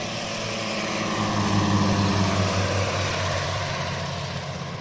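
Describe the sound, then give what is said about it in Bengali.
A Cant Z506 three-engine floatplane takes off from the sea, its propeller engines making a dense, steady droning roar. The drone swells slightly in the middle, then eases a little toward the end. “সমুদ্রের জল কেটে speed বোটের মতো ছুটতে আরম্ভ করল তাদের seaplane. যথেষ্ট গতিবেগ অর্জন করতেই ডানার ওপর হাওয়ার চাপ কমে এলো। আকাশের বুকে উড়ে গেল can't Z506 triple engine float plane.”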